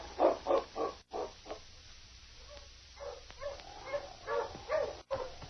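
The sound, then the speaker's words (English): Husky sled dogs barking: rough, short barks in quick bursts, strong at the start, quieter through the middle, then picking up again toward the end. “Oh, King. Hello, you husky.”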